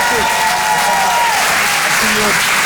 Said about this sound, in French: Faites du bruit pour Pierre Tijoux.